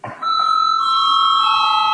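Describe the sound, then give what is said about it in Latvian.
An electric bell rings in the Latvian parliament to call a vote. It gives a loud, steady ringing tone with bright overtones, starting abruptly and holding unbroken to the end. “Lūdzu zvanu.”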